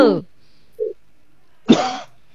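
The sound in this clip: A single harsh, breathy cough bursts out near the end, after a short fragment of voice at the start and a faint brief sound in between, otherwise quiet.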